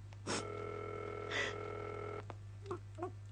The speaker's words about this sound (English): We are ringing Ordway 3787 for you, caller.